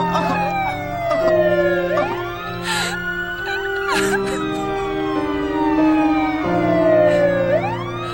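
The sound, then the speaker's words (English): Police sirens in a film scene wail and overlap, several tones sweeping up and down in repeated cycles over a steady low rumble, loud and continuous throughout. “We hear sirens, yeah. So police are on the way already.”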